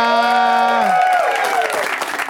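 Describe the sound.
Audience applause fills a comedy show at the Upright Citizens Brigade Theater in Los Angeles. The clapping is dense and steady, with a voice heard over the first second.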